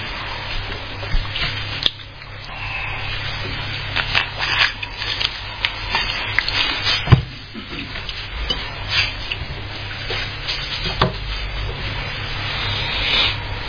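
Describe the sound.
Thin Bible pages rustle and flip as someone looks up Psalm 119, with soft, repeated rubbing and brushing sounds and a few sharper flicks over a faint low hum.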